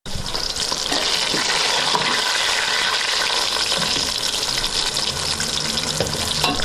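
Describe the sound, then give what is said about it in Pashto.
Tomatoes and onions fry in a pot for qorma in a Kabul home kitchen, giving a loud, steady sizzle and hiss that holds throughout with no breaks and no talk. “اوس رومیان مې سره کړي دي، اوس پیاز مې سره کړي، اوس په کغه اچوم قورمه پخوم.”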